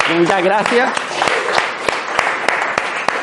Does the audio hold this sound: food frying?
no